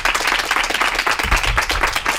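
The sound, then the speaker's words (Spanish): Audience applause for a guest during a live Spanish-language interview event: dense, steady clapping that fills the whole two seconds at even loudness, with no talk over it. “Un aplauso para Nina.”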